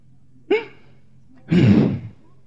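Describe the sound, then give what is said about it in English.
A man's voice imitates groaning, first a short voiced moan, then a longer, breathy, heaving groan, loud and alone. “He was groaning. It was like,”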